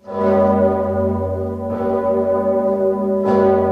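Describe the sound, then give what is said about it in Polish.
Poland's most famous large bell tolls at Wawel Cathedral in Kraków, giving three deep, resonant strikes about one and a half seconds apart, each with a long humming sustain that runs into the next. “O 18:50 słychać było najsłynniejszy polski dzwon Zygmunt, który rozbrzmiewa tylko w najważniejszych chwilach.”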